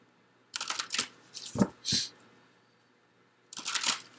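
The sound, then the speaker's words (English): Tarot cards being drawn from a deck: crisp, papery flicks and snaps in a few short bursts separated by quiet pauses, with no talk. “let me get some cards from the Life Purpose deck, Virgo, and then I'm going to get some additional cards from the Emperor and the Star”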